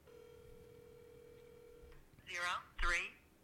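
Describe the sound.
A telephone dial tone hums steadily and faintly for about two seconds as a call to a for-sale-by-owner home seller is placed, then cuts off before two short, louder voice-like bursts.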